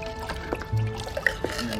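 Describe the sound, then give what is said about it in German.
Liquid paint thinned with turpentine until watery, poured into large plastic buckets: faint sloshing and trickling with a few soft drips and splashes over a low, steady background. “nimmt sie einige große Plastikeimer und gießt Farbe hinein.”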